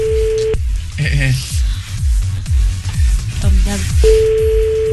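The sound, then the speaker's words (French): A French telephone ringback tone sounds for an unanswered call: a steady, mid-pitched tone, a pause of several seconds while people talk and laugh, then the tone again. “Là, elle ne décroche plus.”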